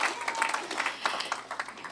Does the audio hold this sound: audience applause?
yes